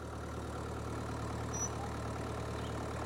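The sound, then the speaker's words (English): A pickup truck towing a horse trailer runs its engine, a faint, steady low rumble with an even idle and no other sound. “Mira, allá viene la camioneta y Mimi.”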